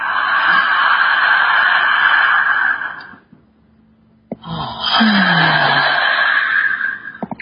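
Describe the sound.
Slow, deep breathing during a guided relaxation exercise. Two long, airy breaths are separated by a brief silent pause, with no talk.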